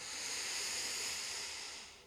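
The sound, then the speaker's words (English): A long, deep breath drawn in through the nose makes a soft, steady, airy hiss for about two seconds before tapering off, heard alone without talking. “So go ahead and take a huge, deep, full breath in through the nose.”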